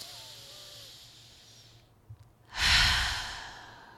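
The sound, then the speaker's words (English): A deep breath taken during a guided breathing exercise: a quiet stretch and a brief sniff, then one long, loud, airy exhale that swells and slowly trails off. “Let's breathe.”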